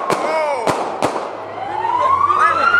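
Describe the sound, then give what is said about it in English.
Gunshots from police firing at a man on a downtown street: three sharp, loud cracks in quick succession, followed by a wailing siren that climbs steadily in pitch. “You can hear at least 5 shots, and those are bullets”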